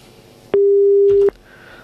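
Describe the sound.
A telephone busy signal after a dropped call: one loud, steady electronic tone lasting under a second, with click-like bursts at its start and end, set against a quiet line.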